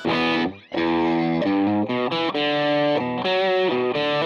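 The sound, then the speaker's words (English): An electric guitar from a Gretsch review plays through its bridge Filtertron pickup on a Vox-style amp model, with a loud distorted tone and a few sustained notes and chords separated by brief gaps. “Let's try it more of a Vox kind of thing back on the bridge Filtertron.”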